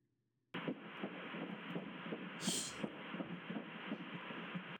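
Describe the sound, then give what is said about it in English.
A fetal heartbeat recorded in the womb: a rapid, steady train of soft whooshing thumps, about two to three per second, over a constant muffled hiss. It starts abruptly after a brief silence and runs at an even level with no voices. “So this is the sound of your heartbeat, but the sound it made when you were in my tummy.”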